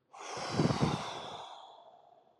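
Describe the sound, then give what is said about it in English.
A single slow exhale through the mouth during a guided breathing exercise: a soft, breathy rush lasting about two seconds that swells early and then gradually fades, with no talking. “So breathe out through your mouth. Here we go. Breathe out slowly at a count of 4 seconds.”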